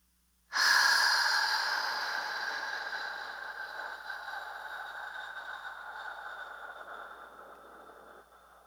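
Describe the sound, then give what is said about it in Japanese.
One long, slow breath rushes out as part of a breathing exercise timed at five seconds in, one second held and fifteen seconds out; the airy hiss starts strong and gradually fades over about eight seconds. “5秒吸って、1秒止めて、15秒吐く。”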